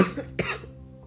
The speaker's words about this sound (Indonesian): agak batuk.